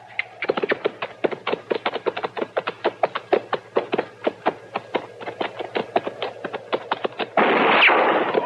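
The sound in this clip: Gunfire in a rapid, steady stream of many sharp cracks, ending in a louder, sustained burst of noise.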